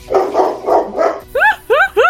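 A dog barks four times in a steady run, then gives three sharper, higher yelping barks with short gaps between them.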